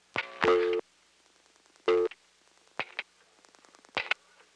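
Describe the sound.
A telephone number is pulse-dialed on an NX1 switching line. Buzzy, harmonic tone bursts of different lengths are separated by short gaps and mixed with faint trains of clicking pulses.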